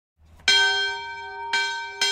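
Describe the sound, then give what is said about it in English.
A bell outside a college library rings out with three loud strikes, each leaving a long, steady, bright tone. The second and third strikes fall closer together, and the ringing is heard alone. “Every time the bell rings outside Hampshire's library, another student has finished their senior thesis”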